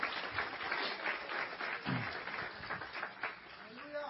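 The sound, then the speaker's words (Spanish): Congregation applauding during a church service, a fairly faint continuous patter of many hands clapping, with a voice briefly heard over it. “Dele aplauso al Señor. Give the Lord a hand clap.”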